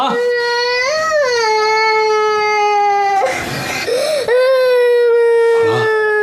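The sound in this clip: A young child cries loudly in long, tonal wails that waver in pitch, broken midway by a breathy, noisy gasp before the crying resumes.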